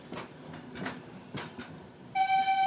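Several rhythmic chuffs from a 140-tonne coal-fired steam locomotive running, then a loud, sustained whistle with a steady pitch near the end.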